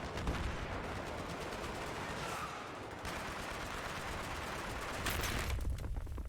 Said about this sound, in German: Oh, oh, Panzer. Lass mich in Ruhe. Panzer, nicht auf mich schießen. Nicht auf mich schießen.